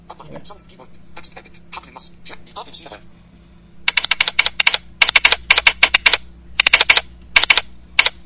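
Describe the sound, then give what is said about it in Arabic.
A computer keyboard being typed on, with light, scattered key clicks at first, then louder, rapid bursts of clattering keystrokes separated by short pauses. “هذا صوت أزرار لوحة المفاتيح حقة الكمبيوتر.”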